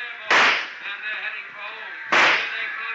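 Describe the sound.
Two gunshots in a radio drama rooftop shootout, each a sharp, loud crack with a fading tail, about two seconds apart over a quieter murmuring background.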